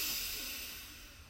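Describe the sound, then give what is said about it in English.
A deep inhale taken during a relaxation exercise: a soft, steady, breathy hiss that tapers off gradually over its length, heard on its own with no talking. “Take your shoulders up to your ears on your in-breath, deep breath in.”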